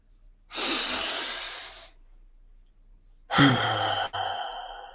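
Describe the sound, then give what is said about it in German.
A deep breath drawn in through the nose, then after a pause a slow, breathy exhale through the mouth, part of a breathing exercise for building self-confidence; both are loud, airy and alone, with no talk. “Durch die Nase ein oh, und dann ganz langsam durch den Mund aus.”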